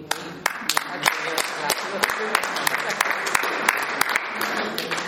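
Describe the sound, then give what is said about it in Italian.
Audience applause: dense, steady clapping with several sharper individual claps standing out, loud and sustained for the whole stretch. “Quando dico questo, veramente dicevo applausi”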